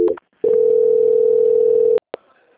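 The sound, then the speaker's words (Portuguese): A steady, single-pitched telephone tone plays for about a second and a half while a call is transferred to another department, then cuts off and is followed by a couple of short clicks. “vou transferir a ligação da senhora para o controle de qualidade que dará continuidade à sua contratação. Só um momento, por favor. Tá ok. Transferência.”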